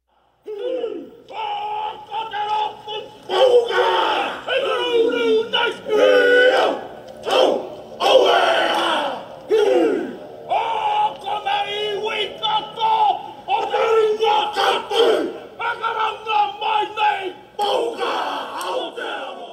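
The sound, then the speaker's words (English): Haka war dance chanted as a tribute by a biker gang in New Zealand: many loud male voices shouting and chanting in rhythmic unison, with forceful barked phrases and sharp cries rising and falling throughout. “That was the sound of the Haka tribute performed by a biker gang in New Zealand.”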